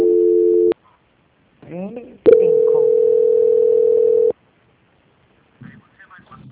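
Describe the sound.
Telephone line tones sound while a call is transferred to an extension. A brief steady tone is followed by a short voice, then a longer unbroken tone holds for about two seconds before a faint voice returns.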